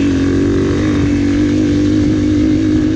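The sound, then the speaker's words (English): A dirt bike engine runs with the throttle twisted open, giving a loud, continuous, buzzing drone that stays steady and uninterrupted throughout, with no voices. “All it is twisting the throttle more.”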